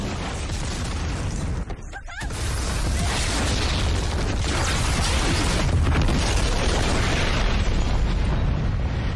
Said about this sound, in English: Ooh, it explodes after.